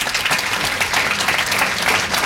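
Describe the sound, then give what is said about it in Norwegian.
Steady applause with dense, continuous clapping at an even level from start to end, with no voices standing out. “Altså, applaus for Murakami der.”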